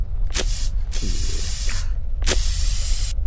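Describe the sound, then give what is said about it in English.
Insect repellent spray hissing out in loud, breathy spritzes, a few long bursts separated by brief pauses, with no voices. “Okay, give us both a spritz of that bug juice.”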